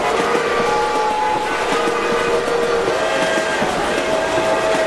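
Train locomotive noise, loud and continuous: a dense, steady mechanical roar with a sustained tonal whine running through it, with no pauses.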